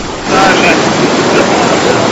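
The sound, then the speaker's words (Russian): Sea waves splash over rocks in a loud, continuous rush of surf, swelling after a brief moment and mixed with wind noise. “И душ от морских волн.”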